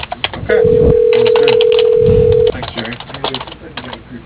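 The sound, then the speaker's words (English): A telephone line tone heard while dialing through a company's automated phone menu: one steady, mid-pitched electronic tone lasting about two seconds on a thin phone line. “Dialing.”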